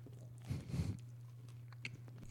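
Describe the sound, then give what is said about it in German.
Someone bites and chews a slice of toast: a faint crunchy burst of biting and chewing, then quieter mouth sounds over a steady low hum. “und dann isst man erst die Scheibe Toast. Also einfach die erste Scheibe erstmal ein bisschen essen. Wie, le wie lecker ist das? Mache ich gerade.”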